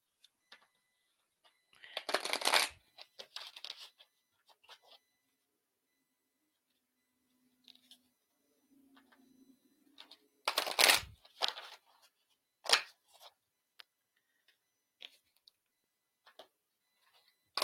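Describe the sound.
Cards are shuffled to draw one for a reading: several brief riffling bursts separated by long quiet gaps, fairly soft overall.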